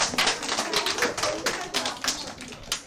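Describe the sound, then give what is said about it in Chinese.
Classroom applause for a group of students: many quick, sharp claps in a rapid, uneven patter, fairly faint, with no voices standing out. “好，掌声。”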